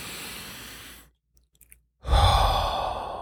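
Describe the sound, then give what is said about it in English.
Deep breaths, heard as two long, airy rushes of about a second each, split by a near-silent pause with a few faint clicks; the second breath is louder and fuller. “First thing is take three deep breaths.”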